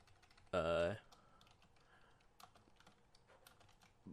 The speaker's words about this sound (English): typing up what all everyone has.